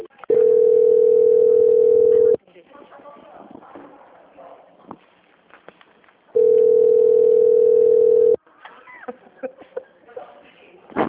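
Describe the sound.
A telephone line during a call transfer gives two long, steady, loud tones of about two seconds each, separated and followed by faint, muffled line noise.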